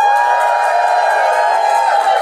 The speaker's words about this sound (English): Give me a cheer if it's getting engaged.